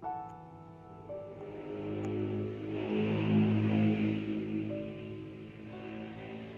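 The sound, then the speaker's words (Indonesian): Traffic at a busy roadside: a low engine hum swells as a vehicle passes, peaking midway with a broad whoosh before easing off again. “Di sini menjadi tempat yang ramai. Ramai akan kendaraan. Ya namanya juga di pinggir jalan ya.”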